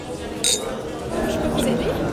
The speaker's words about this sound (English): take a drink. Champagne. Nice. Cheers.